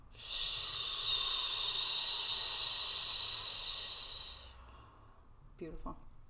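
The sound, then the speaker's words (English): During a guided seated relaxation exercise, a long, steady breath is drawn in as a loud airy hiss for about four seconds. A quiet pause follows, then a short voiced sigh as the air is let out. “We're going to breathe in. Hold it and let everything go.”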